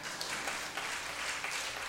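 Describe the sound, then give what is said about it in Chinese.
Applause: a short, even burst of clapping, fairly faint and steady, with no voices over it. “掌声鼓励一下。”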